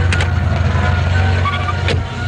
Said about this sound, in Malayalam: ഇതേതാ ഈ വണ്ടി? ഇവനെന്തിനാ ഇതേ കയറി പോയത്?